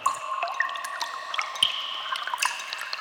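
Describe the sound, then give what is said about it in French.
Water trickles and drips down the wet walls of a cave, a faint, steady patter of many small, high-pitched drips and splashes. “humide. Les parois de la grotte ruissellent.”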